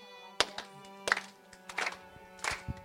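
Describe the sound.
People clap out a slow, even beat over a sustained musical tone. Several sharp, moderately loud claps land at regular intervals, with softer taps between them.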